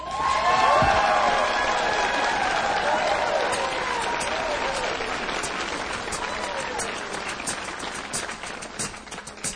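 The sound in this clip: Audience applause with cheering for a live show in Branson: a dense, steady wash of clapping that runs throughout, with sustained musical tones beneath it at the start.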